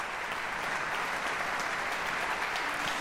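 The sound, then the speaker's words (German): Audience applause for an orchestra and its young conductor at a live orchestral concert in a philharmonic hall: dense, steady clapping from many hands, sustained at an even level throughout. “Philharmonischenorchester Lützeburg Direktion Maxim Emilianitschew a viel Applaus auch für diesen ziemlich jungen Dirigent 1988 geboren”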